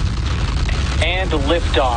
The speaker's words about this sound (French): Décollage réussi pour la fusée Falcon 9 de SpaceX.